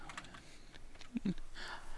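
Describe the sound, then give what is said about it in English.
Quiet typing as a URL is entered on a computer keyboard: a few soft, quick key clicks over a faint background hum. “Sorry, I was typing in a URL because I wanted to be sure I get this right.”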